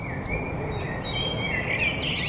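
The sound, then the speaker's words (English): Birdsong from song thrushes, blackbirds, robins and wood pigeons in a London city cemetery: overlapping high chirps and whistled phrases run continuously over a steady, fairly loud background rumble. “In fact, these are song thrushes, blackbirds, robins, and wood pigeons in Abney Park Cemetery in London.”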